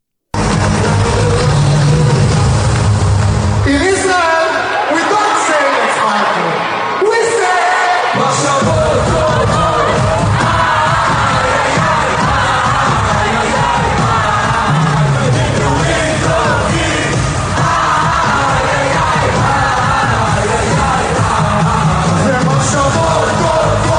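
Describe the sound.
A standing crowd gives an ovation at a large concert at Madison Square Garden in New York, with loud, sustained cheering, yelling and whooping, a brief dip early on, then a continuous roar of many voices.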